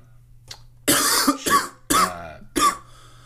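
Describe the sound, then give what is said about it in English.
Coughing fit: four loud, harsh coughs in an uneven burst lasting about two seconds, with short pauses between them and a faint brief sound just before. “you're coughing up a storm”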